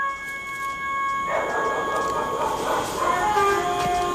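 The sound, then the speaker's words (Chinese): A dog barks at night somewhere near a village, a few barks blending with a steady droning hum and faint tonal noise, with no clear speech over it. “你听。 听什么？ 狗叫啊。”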